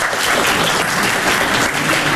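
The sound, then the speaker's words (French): A comedy-show audience breaks into loud applause, a thick and unbroken wash of clapping that holds at full strength from start to finish. “Applaudissez ceux qui aiment pas travailler.”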